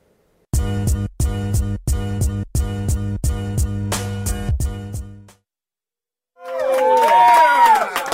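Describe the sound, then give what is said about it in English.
Brief cheering and whooping from a small studio audience of staff members told to cheer. It swells loudly after a pause, with high whoops over a broad crowd roar. “We apparently have a brand new studio audience, so it was fake. They're all workers here, and I told them they had to cheer.”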